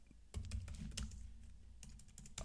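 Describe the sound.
Typing on a computer keyboard: a quiet, quick run of many clicking keystrokes with brief pauses between bursts, with no voices.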